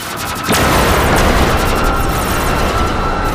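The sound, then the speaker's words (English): A sudden booming blast effect from a giant glowing eye firing in an audio drama, bursting in loudly after a brief quiet start and then holding as a sustained, roaring rumble to the end. “The eye begins to glow bright as if readying to engage. The eye fires.”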